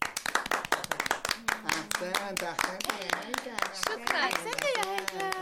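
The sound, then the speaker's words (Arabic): Classmates clap for a pupil who has just finished reading a page of a lesson aloud in class: many quick, sharp claps in an uneven patter, with voices talking over them throughout. “ولما أكمل هيثم قراءة الصفحة الأولى من الدرس العاشر، صفق له الجميع وشكرته المعلمة هناء كثيرا.”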